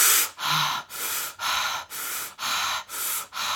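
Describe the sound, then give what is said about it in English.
Deliberately exaggerated circular breathing: loud, airy inhales and exhales run together in a steady train of about eight breath strokes, each separated by only a brief dip, with no real pause between them. “Try to have no pause at the top of the exhale or the bottom of the inhale, so it's more of a circular breath. I'm going to dramatize it for effect on the podcast here.”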